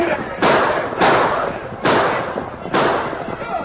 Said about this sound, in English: Riding hard, the homesteaders and the ranchers fired on the Indians.